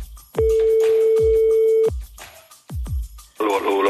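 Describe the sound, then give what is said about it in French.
A French telephone call rings out as one long, steady, mid-pitched ringback tone lasting about a second and a half. Sharp line clicks and quiet gaps follow, and a voice briefly sounds at the very end. “On appelle qui? On appelle René.”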